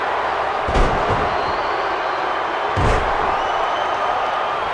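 A wrestler is slammed onto the ring mat during a wrestling match, giving two heavy booming thuds over a loud, steady crowd roar.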